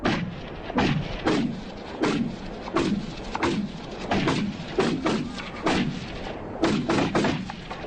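Rifle gunshots at shooting practice ring out as many sharp, loud cracks in quick, slightly uneven succession, each with a short decaying tail, and no talking between them.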